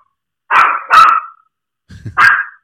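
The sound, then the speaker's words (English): A dog barks a few times, with sharp mid-pitched barks in two quick pairs separated by a short pause, loud and clear with no voices. “I think your dog wants to be on the podcast.”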